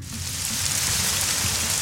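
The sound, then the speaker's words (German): Steady summer rain patters on a surface as a dense, even hiss. It swells slightly at the start, then holds level and fairly loud, with no voices. “Der Regen. So ein schöner Sommerregen. Der kühlt doch direkt ab.”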